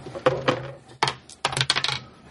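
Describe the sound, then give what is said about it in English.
Dice rolled during a game among several players: a few quick bursts of hard rattling clicks and clatter, spaced unevenly, with no talk over them. “Sorry, we're rolling dice.”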